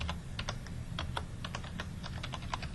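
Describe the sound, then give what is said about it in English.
Typing on a computer keyboard while entering project schedule activities produces many quiet, quick key taps in an uneven rhythm over a low hum. “We can enter it by clicking on the keyboard.”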